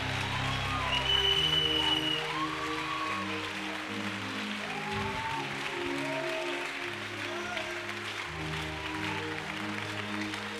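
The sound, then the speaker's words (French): An audience applauds and acclaims God at a church event. Steady clapping and cheering carry on throughout over sustained, shifting musical chords. “Si tu sens qu'il faut continuer, continue à l'acclamer. Si tu veux pousser le cri de joie, continue à pousser le cri de joie.”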